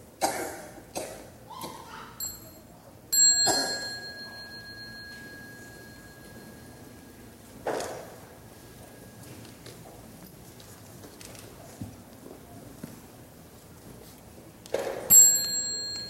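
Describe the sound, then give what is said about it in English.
A small meditation bell rings at the close of a session: one bright strike holds a long, slowly fading tone, and a further strike comes near the end. A few short coughs and soft knocks sound quietly before it. “So when you hear the small bell, you might like to stand up and bow to the Sangha and go out and continue your studies and practice.”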